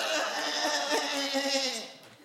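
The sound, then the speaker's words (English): A goat gives one long, wavering bleat with a quavering, nasal tone that fades out at the end. “I give you this goat from my fanny pack to sate your bloodlust!”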